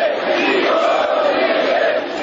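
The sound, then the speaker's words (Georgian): Protesters shout at a mass demonstration in Chisinau, where crowds demand the resignation of the president and government. Many voices merge into a loud, continuous roar. “გამარჯვება, გადადექით. ეს შეძახილები ისმის მანიფესტაციაზე.”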